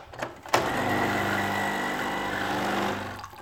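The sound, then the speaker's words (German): Coffee maker brewing a morning coffee, a steady droning mechanical hum with a low buzzing pulse. It starts after a brief click, runs evenly, then eases off at the end. “das andere, was morgens wichtig ist, elementar, das ist der Kaffee und den mache ich mir jetzt erstmal. So, Kaffee läuft.”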